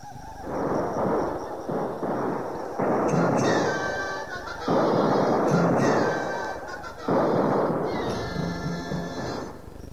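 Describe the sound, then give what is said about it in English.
Musket gunfire in a frontier battle, heard as several heavy booming volleys that roll and crackle, each swelling loudly and then fading before the next blast. “Sounds like Captain Brent's got a battle on his hands.”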